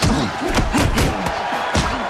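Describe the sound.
A wrestler pummels an opponent into a corner as a loud crowd roars continuously, with a run of heavy thuds and slams breaking through the cheering.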